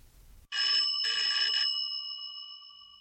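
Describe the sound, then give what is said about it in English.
An electric bell rings on a replica of Marconi's wireless telegraphy receiver, a black box with the bell on top. After a brief noise, a loud, bright rattling ring lasts about a second, then rings out with a clear tone that slowly fades. “It's a replica of the receiver that Marconi used for the first public demonstration at Turnbull Hall in London. Marconi walked around with this black box with the bell on top,”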